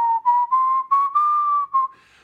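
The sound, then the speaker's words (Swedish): A person whistles a short, clear tune of about six sustained notes while waiting. The notes sit close in pitch, drifting slightly higher in the middle, and end with a faint breathy tail. “Jag visslar så länge.”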